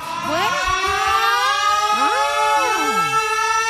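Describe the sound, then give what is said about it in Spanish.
Ambulance siren arriving to pick up a motorcyclist after a crash, loud wailing tones that sweep up and down in pitch several times, with no voices over it. “Ya llegó la ambulancia. Sí, ya llegó. A recoger el de la moto.”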